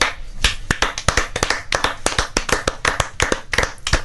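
Weak applause from only a few hands: sparse, uneven claps at a moderate level that never build into a full ovation.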